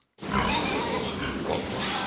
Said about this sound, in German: In den einzelnen Abteilungen liegen die Ferkel bei ihren Müttern.